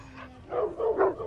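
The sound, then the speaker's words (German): Dogs bark in a few quick, short bursts, moderately loud and close together, with no voices over them. “Hunde bellen? Tausende Gedanken schießen Constanze durch den Kopf, aber keinen davon kann sie richtig einfangen. Warum bellen die Hunde? Ist hier noch ein anderes Auto?”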